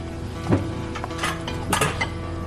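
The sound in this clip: Dishes clinking as a plate of food is prepared: a few light, bright clinks of crockery spaced out over a soft steady background.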